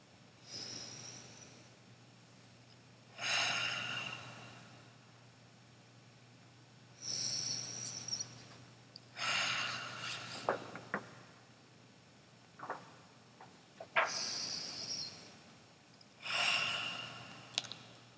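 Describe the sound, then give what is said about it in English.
Slow Ujjayi breathing during a meditation: a few soft, drawn-out breaths with a rushing, throaty hiss, separated by quiet pauses, faint and with no talking. “3 Ujjayi breaths.”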